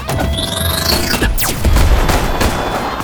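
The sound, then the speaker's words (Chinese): Anti-tank cannon fire in a game battle: a few heavy booming blasts over a continuous low rumble, with sweeping whooshes and crackling bursts. The loudest, deepest impact lands in the middle. “反坦克炮”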